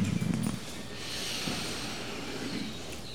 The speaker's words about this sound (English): So let us open by breathing in.